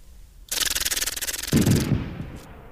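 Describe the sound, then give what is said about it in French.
A voice imitates an AK-47 machine gun: a fast, even string of many sharp, hissy pops lasting about a second, followed by a lower, rougher burst of noise that trails off. “Mitraillette AK-47.”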